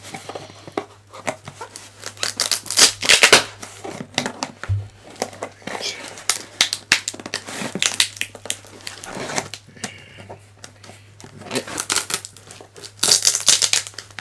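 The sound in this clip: A cardboard box is cut open, with bursts of crinkling and tearing cardboard arriving in uneven spurts and pausing between strokes.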